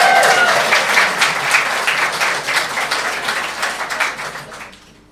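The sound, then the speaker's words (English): Audience applause at a live stage event, loud and dense with many overlapping claps, holding steady and then thinning and fading out in the final second. “A round of applause for Andrew Keppel”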